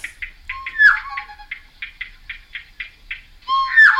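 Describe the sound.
Two birds call back and forth in a duet, giving a rapid series of short, evenly spaced notes. Twice the series breaks into a louder, longer, harsher call, once near the start and again at the end.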